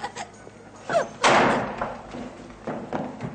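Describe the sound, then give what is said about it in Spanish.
A door being shut in an eighteenth-century drama, a solid thud followed by a few softer bumps and rustles. “La chica cierra la puerta”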